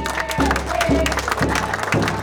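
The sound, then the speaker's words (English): A crowd applauds at a welcome-home gathering while singing and drumming continue, with steady drumbeats falling about every half second under the clapping and voices. “Lindoff's right foot immediately starts tapping to the singing and drumming, his fingers braided together on his lap. He looks content. The crowd applauds.”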